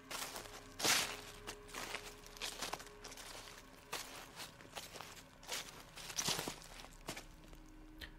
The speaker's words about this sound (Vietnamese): quả thật là tiếng bước chân sột soạt dẫm lên lá khô thật, chứ không phải là ảo giác.